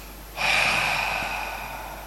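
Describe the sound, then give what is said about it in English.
A single deep exhaling breath, heard alone as an airy rush that starts abruptly and then slowly trails off as the air runs out. “Let's do a little few deep breaths, and when you breathe out, you go like.”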